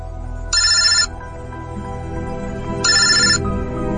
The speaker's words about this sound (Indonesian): Hingga temanku tiba-tiba saja menelponku.